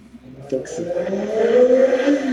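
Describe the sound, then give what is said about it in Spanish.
Motorcycle engine revving as the rider readies the bike to head off; a throaty drone builds in loudness and climbs slightly in pitch, then holds at a steady high rev. “Ese es el máster preparando su moto para salir disparado hacia su siguiente compromiso.”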